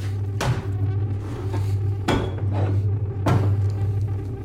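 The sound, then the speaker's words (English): Kitchen cupboard doors are opened, with three separate knocking thuds spaced out over a steady low hum. “He opens cupboard doors, seeing cockroaches inside.”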